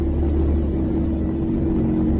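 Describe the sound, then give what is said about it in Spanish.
Military vehicles advancing near Kharkiv during wartime produce a dense, steady low engine rumble and droning roar, continuous and loud with no talk. “Son los carros militares avanzando en este caso sobre Kharkov”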